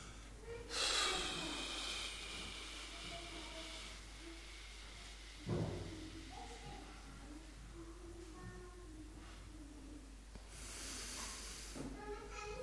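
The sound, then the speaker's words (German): Slow, breathy exhalations demonstrated in a breathing exercise. Two long, hissing outbreaths stand out with a quieter stretch between them, where soft murmured sounds drift under steady low noise. “Also, ich atme jetzt mal aus und mache es mal vor und dann machen wir es gemeinsam.”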